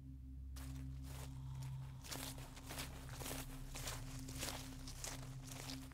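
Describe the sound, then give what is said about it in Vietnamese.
Slow footsteps of someone coming up from behind: many soft, scuffing steps in a steady rhythm over a low constant hum, with no voices. “đằng sau lưng của Chiến có tiếng bước chân chậm chậm đi đến”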